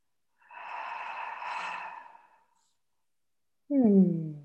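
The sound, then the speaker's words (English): A deep breath during a guided breathing exercise: a long, soft, airy inhale of about two seconds, a short pause, then a voiced exhale that falls in pitch. “And taking that final deep, delicious breath, deepest one of the day, all the way down to the very root.”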